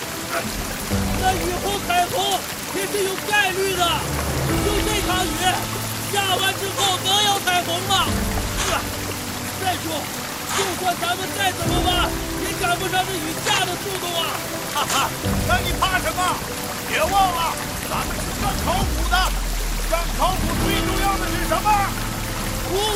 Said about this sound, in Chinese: 哇， 这雨也太大了吧！ 哎，下点雨怕什么？